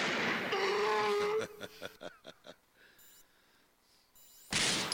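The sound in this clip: Gunshot sound effects follow a stretch of talk as a quick run of several sharp, cracking bangs, then a quiet gap before a sudden loud noisy burst.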